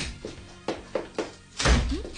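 Door sounds as someone walks into a room without knocking: a few soft, scattered knocks and thuds, then a louder, longer thump near the end. No one speaks.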